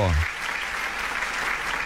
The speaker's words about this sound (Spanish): Bueno, unos aplausos.